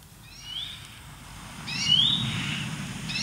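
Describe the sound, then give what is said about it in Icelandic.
A starling singing in a garden on Grímsey, relayed over a telephone line: thin whistled phrases with a few rising, slurred notes over a low, muffled background rumble. “Það var gaman að heyra í sterknum í garðinum hjá Höllu Ingólfsdóttur í Grímsey”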